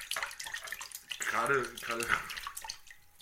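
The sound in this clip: Water splashes in a foam bath with two people sitting in the tub, a soft irregular sloshing mixed with a voice talking over it.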